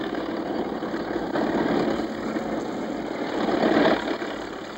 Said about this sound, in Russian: Вдоль берега едет трактор.